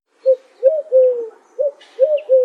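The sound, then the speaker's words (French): Cooing of an albino white dove of the pigeon family: a series of soft, low, mellow coo notes in short rhythmic phrases, clear and alone without talk. “Je suis de la famille des pigeons et des tourterelles. Mon plumage est tout blanc.”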